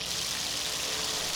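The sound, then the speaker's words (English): Water runs from a newly installed outdoor faucet on a vacant lot near portable toilets and sinks, a steady, even rushing hiss with no break and no voices. “It's the sound of a faucet the city installed here about a week ago, along with a row of portable toilets and sinks.”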